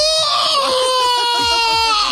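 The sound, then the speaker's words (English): A voice imitating a primal scream: one loud, sustained, wailing cry held steadily for about two seconds, its pitch sagging slightly toward the end. “I do a primal scream, which is always fun to do.”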